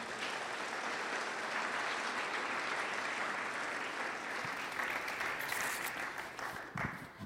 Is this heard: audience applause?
yes